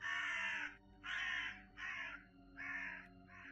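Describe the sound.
A crow caws in five harsh, drawn-out calls with short gaps between them, loud and unaccompanied by other sounds.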